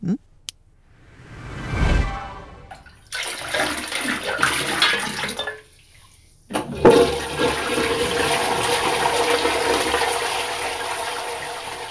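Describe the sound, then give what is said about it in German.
A toilet flushing after a stinking concoction from a stovetop pot is poured in. A short whoosh comes first, then rushing water, a brief lull, and a long loud surge of flowing water that continues to the end. “Und jetzt kippen wir diese stinkende Abscheulichkeit auf deinem Herd mal unter ständigem Rühren ins Klo.”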